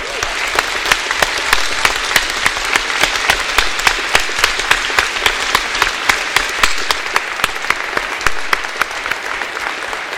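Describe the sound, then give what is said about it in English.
An audience applauding graduating classmates at a graduation ceremony, a dense, steady burst of many hands clapping that holds at an even, loud level for about ten seconds. “At this point, I would like to ask my classmates to stand up, to face their family and friends in the audience, and let's all give them a round of applause.”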